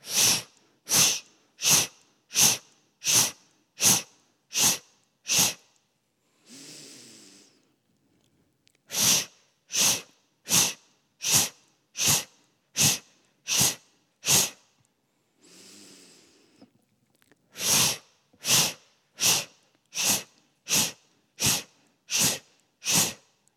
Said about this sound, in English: So just go ahead and continue this breath, inhaling deep through the nose, and then exhale 8 times.